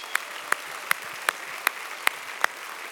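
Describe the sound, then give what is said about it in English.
Audience applause for a public safety IT worker honoured for 26 years of service, heard as seven sharp, evenly spaced claps in a slow, steady rhythm with little else around them. “So let's give it up to Floyd.”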